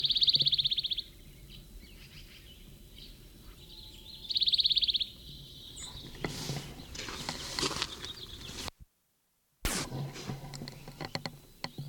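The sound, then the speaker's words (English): A plain titmouse calls in the early morning at a road fork by a creek among sycamores: two short, high, buzzy bursts, faint over steady background noise, followed by scattered rustling. “Plain titmouse at the road fork, Big Creek. The sycamore bird.”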